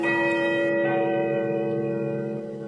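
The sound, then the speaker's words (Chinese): A clock tower bell by a river rings out in one long, rich toll whose layered harmonic tones hang in the air and fade slowly, with no voices. “远处，江边的钟楼发出悦耳的钟声”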